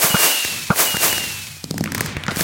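Fireworks launched from dispensers in the Minecraft video game: several sharp pops and a thin whistling streak, then a dense crackling burst.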